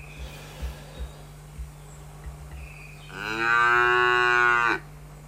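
A cow gives one long, loud, low moo on a farm, after a few faint soft knocks over a steady low hum.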